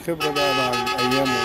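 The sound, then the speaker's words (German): Minibus and taxi horns honking in Cairo traffic, a continuous buzzy blare of overlapping steady tones that step to different pitches a few times. “Für Außenseiter, Ausländer oder Ägypter, die nicht Taxi- oder Minibusfahrer sind, bleibt die Huperei ein ungeschriebenes Buch mit 7 Tönen.”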